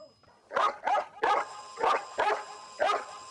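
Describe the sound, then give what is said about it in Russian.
A dog barks at a stuffed owl whose eyes light up together with a bell. Six sharp, loud barks come in an uneven rhythm, with short silent gaps between them. “Лает на чучело совы со светящимися одновременно со звонком глазами.”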